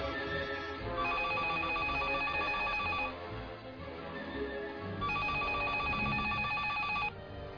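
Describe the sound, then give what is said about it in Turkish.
A telephone rings at night: two long, steady electronic trilling rings of about two seconds each, separated by a pause of roughly two seconds, over a constant low background murmur. “gecenin bu vaktinde kim arıyor?”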